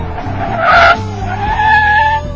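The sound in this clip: A car brakes hard with its tires skidding: a loud, sustained squeal with a steady tone rides over a low engine rumble for a couple of seconds.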